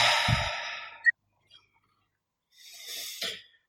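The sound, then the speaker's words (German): Deep breathing during a guided breathing exercise, drawn in through the nose and let out through the mouth. A long, airy exhale is followed by a quiet pause, then another soft, rushing breath. No talk. “Und wir starten einfach mal mit 3 tiefen Atemzügen durch die Nase ein, durch den Mund aus.”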